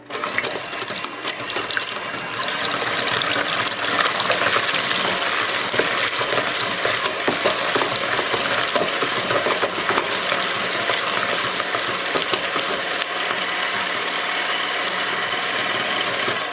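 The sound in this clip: An electric mixer whips egg whites with a steady, loud mechanical whirring that runs without pause from start to finish and has no talking over it.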